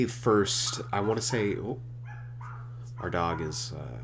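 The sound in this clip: A neighbour's dog barks a few times in short, loud bursts, with a person talking over and between the barks.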